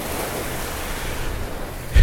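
Ocean surf washes steadily on a warm beach at Pompano Beach, a continuous broad rushing hiss with no talk, ending in a sudden louder burst.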